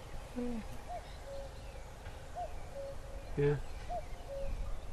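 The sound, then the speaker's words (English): A cuckoo calls over farm fields in early May. Its faint two-note hoot repeats a few times at a steady pace over a low rumbling background. “There's the cuckoo there now.”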